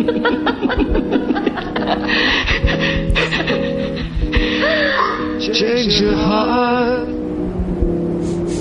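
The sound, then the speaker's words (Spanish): A person crying with tearful, wavering vocal sounds, gasps and laugh-like breaths, fairly loud and continuous, with speech woven through the sobbing. “Me pongo a llorar cada vez que no Se le están cayendo las lágrimas.”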